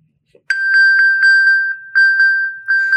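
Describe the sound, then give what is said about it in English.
An Apple iPhone pings to be found after being triggered from an Apple Watch. A brief quiet gives way to a long run of rapid, bright, high-pitched pings, loud and steady, with no other sounds. “That is the sound of my mom looking for her phone. A few years ago, I bought her an Apple Watch. This is the primary function of my mom's Apple Watch.”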